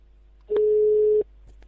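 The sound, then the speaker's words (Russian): A telephone ringback tone sounds while a call is being placed. It is a single steady mid-pitched beep lasting under a second, set against near silence and faint line noise. “Ну хорошо, сейчас позвоним, кто возьмет трубку.”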